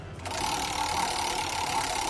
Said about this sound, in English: All right, spin that wheel.